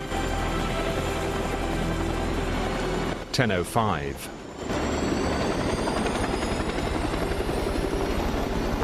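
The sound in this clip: Steady engine drone of an aircraft, likely a helicopter, as passengers climb out: a loud, continuous hum with tonal whine, briefly interrupted midway by a few sharper knocks before the drone resumes.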